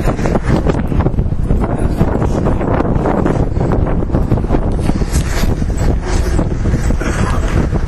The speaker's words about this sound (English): Bit of wind.